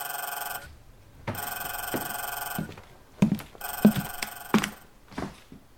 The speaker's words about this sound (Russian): Иосиф как раз собирался лечь спать, когда зазвонил телефон.